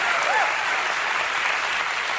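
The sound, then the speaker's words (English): Dense, steady audience applause forms a continuous wash of clapping at an even level, with a brief faint voice near the start. “I don't mind taking claps for the show, you know, but like taking claps for that, that's nothing.”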